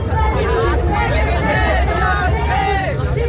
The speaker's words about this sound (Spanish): Este es el sonido de una de las recientes protestas en Berlín por el aumento del precio de la vivienda